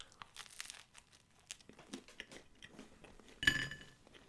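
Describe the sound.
Chewing and biting into bread, with many crisp, crackly crunches in an uneven rhythm, quiet overall. One louder, fuller bite stands out near the end, and no one speaks.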